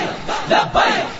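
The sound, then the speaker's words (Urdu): A crowd standing outside chants the Labbaik slogan, shouting in unison. Two loud surges of voices rise over a continuous crowd roar. “آپ باہر والے بھائی آپ ذرا باہر والے لبیک کا نعرہ لگائیں”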